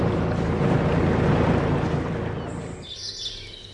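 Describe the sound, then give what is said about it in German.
A fishing cutter leaves a large North Sea harbour at Cuxhaven, its broad, low engine drone strong at first, then fading over a few seconds, with faint bird calls rising near the end. “Und so klingt es, wenn ein Kutter den großen Hafen verlässt.”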